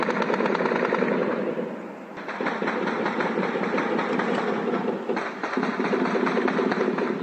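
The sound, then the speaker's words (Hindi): Celebratory gunfire shot into the air by Palestinians after prisoners escaped an Israeli jail: a dense, continuous crackle of rapid shots running throughout, with brief dips in intensity. “इन कैदियों के फरार होने के बाद फिलिस्तीनियों ने खुशियां मनाई और हवा में फायरिंग करके अपनी खुशी का इजहार किया।”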